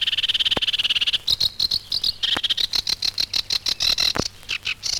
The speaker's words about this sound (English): House sparrow calls.